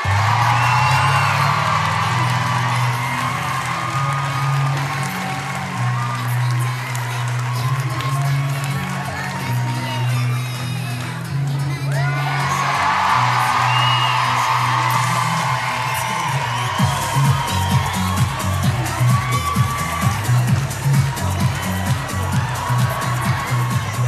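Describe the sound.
A live audience cheers and whoops to welcome back a returning guest, a sustained roar of voices that swells and then gives way to rapid clapping in the latter part.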